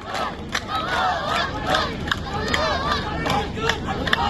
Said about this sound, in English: The sound of young voices chanting at a funeral procession for two Palestinian teenagers in the occupied West Bank